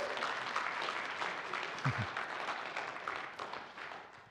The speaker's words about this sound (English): it gives me great pleasure on behalf of the church to welcome these into membership. Would you kind of give them a hand?